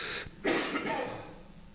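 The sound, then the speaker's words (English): A short cough from someone pausing mid-sermon: a brief rasp followed by a stronger, harsher burst that trails off, with no talk. “Cough is much better, believe it or not.”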